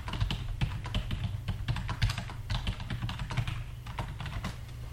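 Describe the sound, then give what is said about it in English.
Rapid typing on a computer keyboard as a search is entered: many quick, quiet clicks in an uneven but continuous patter, with no voices. “I'll look it up. I just type that into Google.”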